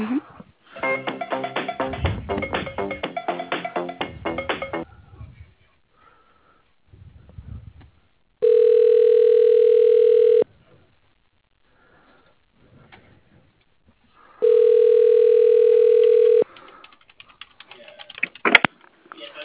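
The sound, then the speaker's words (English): A telephone gives two long, steady ringback tones while a call is being transferred, each lasting about two seconds and separated by a quiet gap. Brisk keyboard typing clatters before the first ring. “I know I kept hearing the phone ringing as well as his office, so let me try you again.”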